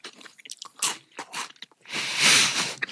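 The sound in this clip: Crunchy food chewed in the mouth: a string of crisp, crackling bites and chews in uneven bursts, ending in a longer, louder stretch of crunching, with no talk.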